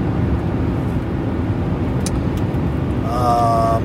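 Steady low rumble of a car being driven, continuous and even throughout, with a brief tonal chime-like sound near the end.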